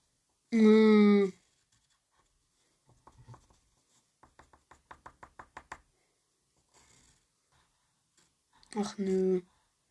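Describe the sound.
A pen drawing on paper gives faint scratches and then a quick run of light, regular taps, with a voice sounding briefly at the start and again at the end.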